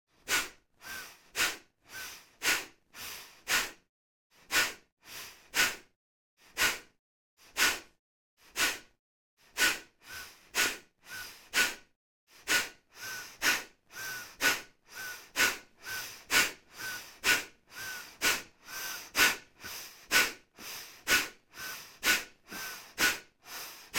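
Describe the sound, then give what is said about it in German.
Fast rhythmic breathing exercise: many quick, evenly spaced breaths in and out, each a short airy rush through the nose, keeping a steady brisk tempo on its own without talk. “Wir beginnen jetzt gleich mit dem schnellen Tempo. Einatmen und beginne. Aus, aus, ein, aus, ein, aus, ein, aus.”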